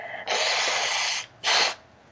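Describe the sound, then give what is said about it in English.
A person blowing their nose: a loud, rushing blast held for about a second, then a shorter blast after a brief pause, with a third starting at the very end. No talk is heard. “One second, I need to blow my nose.”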